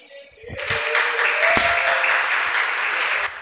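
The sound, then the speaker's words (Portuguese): Office staff burst into applause to celebrate a sale. The clapping starts after a brief quiet moment, swells quickly and holds dense and steady until it eases off at the end. “Ó, desculpa o barulho, viu? É porque quando a gente consegue vender algum contrato que disponibiliza para os clientes, a gente comemora, viu?”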